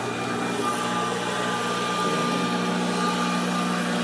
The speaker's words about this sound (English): Got the blowers going.